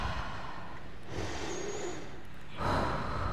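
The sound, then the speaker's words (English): A deep breath taken at the start of a church service: slow, breathy airflow with no words spoken, growing louder toward the end. “Let's all just take a deep breath.”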